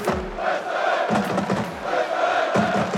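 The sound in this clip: A football stadium crowd roars and chants before a match against Israel in Linz, a loud, dense wall of massed voices with shouts swelling throughout.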